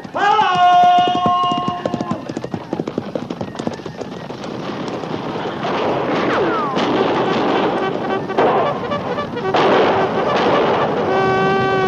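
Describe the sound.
Galloping cavalry horses in a radio drama make a loud, dense rush of hoofbeats mixed with sharp cracking hits, continuing without a break for the whole stretch.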